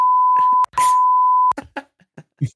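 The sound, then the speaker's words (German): Censor bleeps: two loud, steady high-pitched tones, the first about half a second and the second a bit longer, split by a brief gap, with fragments of speech around and after them. “Piep, piep, piep.”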